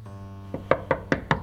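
Five knocks strike a bathroom door in a steady, even rhythm. The first knock is softer and the rest are firm, with no voices.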